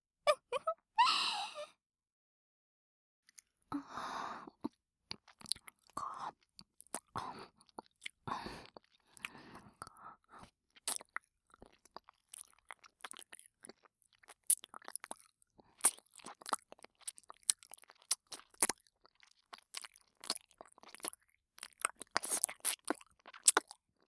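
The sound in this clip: Chewing and crunching close up: many short, sharp crackles and wet clicks in an irregular rhythm, sparse at first and growing denser and louder toward the end, with no talk.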